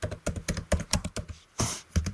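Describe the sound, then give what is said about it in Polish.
Rapid clicking keystrokes on a computer keyboard as an email address is entered: many crisp, irregular taps with a short pause near the end, sounding alone without talk. “ale my wpiszemy sobie tutaj coś własnego”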